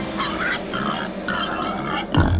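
Wild boars grunt in a few rough, rhythmic bursts met along a road, the run ending on a deeper thud.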